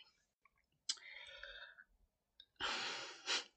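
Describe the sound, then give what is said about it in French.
A deep breath: two soft, airy breathy sounds, each lasting about a second, separated by a short pause, faint and with no speech. “Je prends un souffle.”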